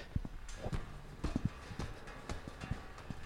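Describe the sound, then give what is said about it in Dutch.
Footsteps climbing a staircase between floors of a tall house, a string of sharp, knocking treads in an uneven rhythm with no talk. “We gaan nu naar verdieping 2. En dan gaan we de trap op.”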